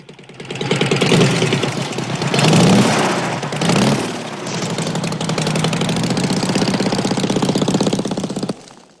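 A vehicle engine runs with a rapid chugging pulse, swelling louder a few times early on before settling into a steady, even drone that cuts off near the end.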